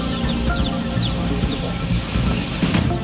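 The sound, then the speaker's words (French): Dense, loud, continuous peeping of many young chicks as a large block of them is carried into a poultry building, with overlapping high chirps throughout. “Pour rentrer les poussins dedans, on peut pas rentrer chacun avec le machin. Alors on en emmène un gros bloc d'un coup.”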